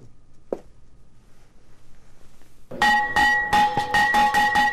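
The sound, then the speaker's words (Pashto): A school bell clangs in rapid, bright, ringing strikes at a ceremony opening the new school year in Afghanistan's cold regions. A few seconds of low background murmur come first, then many loud strikes follow. “ولسمشر محمد اشرف غنی د شنبه په ورځ د ښوونځي د زنګ په کړنګولو سره د افغانستان په سړو سیمو کې د نوي تعلیمي کال پرانیسته وکړه”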